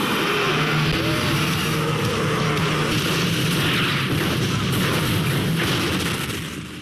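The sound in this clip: A car packed with explosives blows up in a film, a loud, sustained roaring blast that fills the whole clip and tapers off only at the very end.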